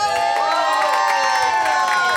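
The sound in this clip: An audience cheers and whoops at a live Halloween comedy show recorded in Hollywood, with high, wavering shouted voices riding over a continuous roar of crowd noise throughout.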